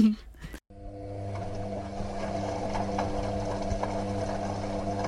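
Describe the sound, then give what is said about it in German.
A washing machine on its spin cycle: a steady, loud mechanical whir with a strong droning hum, running continuously after a brief cut near the start. “Schleudergang.”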